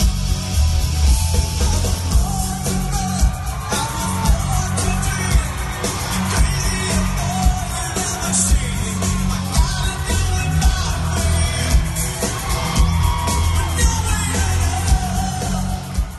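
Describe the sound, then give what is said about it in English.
An audience cheers and yells at a live show after a fan sings on stage, a loud, unbroken roar of crowd noise with scattered whoops and shouts throughout. “Steve didn't just sing, he freaking killed it, and the audience went crazy.”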